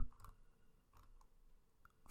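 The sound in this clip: Faint clicks of a computer mouse while a page is scrolled, a few light, sharp ticks spaced irregularly over a quiet background.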